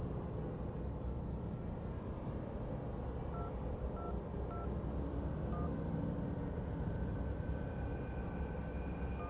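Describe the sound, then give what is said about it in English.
Telephone keypad tones dialing the number 666: a few short, faint beeps spaced at irregular intervals, partly masked by steady, loud rumbling noise that runs through the whole clip. “So what happens if you call 666? Let me show you.”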